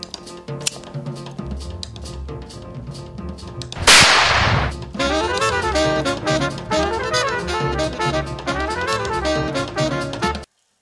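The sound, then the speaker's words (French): A single sharp gunshot cracks out loud and abrupt, then decays quickly over continuous music with a steady beat. “Ah oui, on dirait un coup de feu.”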